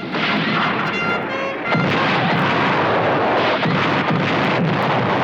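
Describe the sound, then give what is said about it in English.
Coal oil bombs explode on impact amid gunfire as fighters on a roof shoot down at soldiers in a compound. A loud, dense barrage of blasts and rumbling is broken by a few sharp cracks. “The Juaristas on the roof shoot at the soldiers down in the compound and throw coal oil bombs which explode on impact.”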